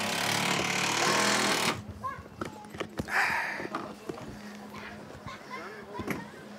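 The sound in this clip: Hammering on the worn wood of a heavily used wooden playground boat: a dense stretch of rapid, loud pounding gives way to scattered sharp knocks with voices talking.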